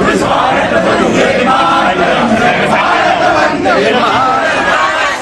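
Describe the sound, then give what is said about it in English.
A large crowd chants "Modi" to welcome Narendra Modi as he arrives at a venue, with traditional dance and music. The mass of voices is loud and dense, sustained without a break as the chanting carries on. “The venue echoed with chants of Modi Modi and Vande Mataram as he arrived.”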